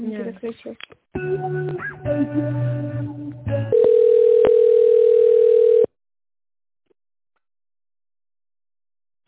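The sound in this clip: A steady, continuous telephone tone after a dropped call sounds alone for about two seconds, then stops abruptly into silence. Other sounds, including a voice, come before it.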